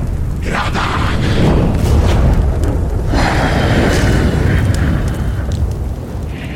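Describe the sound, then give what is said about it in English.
A loud fire elemental combat sound effect: a continuous roaring, crackling rumble with surging whooshes of flame that hold steady throughout. “Even a fire elemental in combat.”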